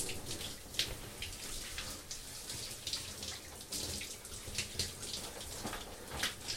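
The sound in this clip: Running shower water, a steady, even hiss of spray with small splashy fluctuations, with no talk over it.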